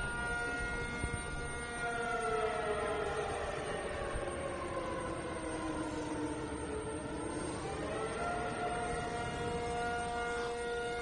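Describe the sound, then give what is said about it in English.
A civil defense air raid siren wails during an annual city drill in Taipei. Its loud, continuous tone has stacked harmonics that sag in pitch midway, then climb again toward the end. “What that is exactly is the annual air raid drill that takes place here in Taipei, usually in the month of June.”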